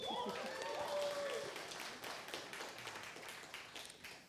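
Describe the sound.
Audience applause welcomes a speaker about to give a testimony: dense, steady clapping that starts strong and gradually thins, with a brief voice at the very beginning.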